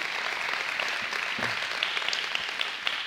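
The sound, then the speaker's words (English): Church audience at Storyside applauding to welcome online viewers, a steady wash of many hands clapping at moderate volume with scattered sharper claps. “Storyside, would you put your hands together and welcome all those joining us online?”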